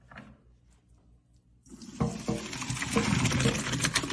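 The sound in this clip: Water poured from a pot through a strainer in the sink, quiet clatter giving way to a sudden gushing splash that grows louder and more turbulent as the pour continues.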